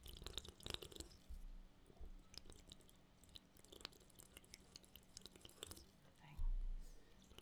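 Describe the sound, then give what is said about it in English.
Loud drinking right into the microphone: soft, wet mouth clicks and swallowing noises that run steadily and faintly, with a heavier thump near the end. “Listener, I'm going to loudly drink into the microphone while Sophia is thinking. Maybe some of you ASMR folks will get a kick out of this if I don't edit it out.”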